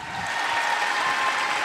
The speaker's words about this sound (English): Come on, clap for that.